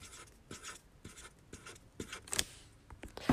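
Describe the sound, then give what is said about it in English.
Faint, short drawing strokes on paper mark strawberry seeds. A pen scratches in many quick, evenly spaced taps and rubs, with a few slightly louder strokes near the end. “And the strawberry base. Drawing the seeds.”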